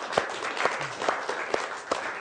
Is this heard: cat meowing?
no